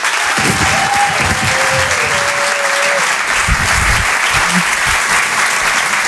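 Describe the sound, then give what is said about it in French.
Dense, sustained applause from a comedy show audience at the Open du Rire greeting a comedian, a steady loud wash of many hands clapping that holds evenly for the whole stretch. “Faites du bruit, s'il vous plaît, pour Roman Doduic.”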